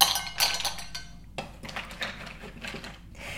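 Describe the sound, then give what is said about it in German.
Plates and a ladle clink while food is served, probably mussels, giving a few sharp, bright clinks and knocks spread unevenly across the moment, with soft handling noise between them. “die Teller mal bitte abstellen”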